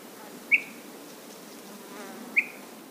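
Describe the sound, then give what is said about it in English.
Insects buzz atop Mount Israel in the White Mountains, a faint, steady outdoor hum broken by two brief, high chirps. “his audio map of the White Mountains is already studded with sounds, from the birds and bugs atop Mount Israel”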